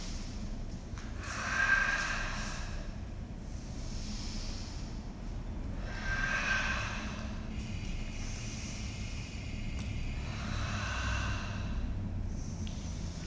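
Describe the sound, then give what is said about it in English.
Slow breathing in and out during a basic yoga sequence, with a few soft, breathy swells spaced several seconds apart, faint over a low steady rumble. “take the in-breath right away, sink down”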